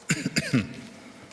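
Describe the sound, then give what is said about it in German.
A few short, rough coughs from a person who has developed a slight cough, bursting rapidly in the first half-second, then trailing off into quiet. “Ich hab einen kleinen Husten entwickelt.”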